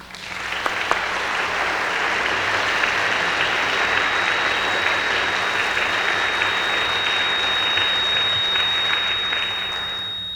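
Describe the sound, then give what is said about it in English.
Steady, dense applause from the audience at the Westminster Town Hall Forum as a guest speaker is welcomed. Loud clapping continues evenly for about ten seconds with no voices over it. “Ladies and gentlemen, please help me welcome to the Westminster Town Hall Forum Professor Paul Starr.”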